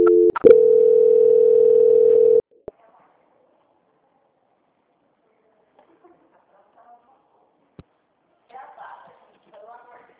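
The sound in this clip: A telephone tone plays during a call transfer: after a few quick clicks, a loud, steady mid-pitched tone holds for about two seconds, then cuts off into near silence with a few faint scattered noises.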